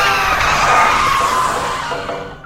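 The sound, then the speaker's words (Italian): Tires skid under hard braking on a car, a sustained rough screech that stays loud for about two and a half seconds and fades slightly at the end. “Occhio! Cosa? Frena!”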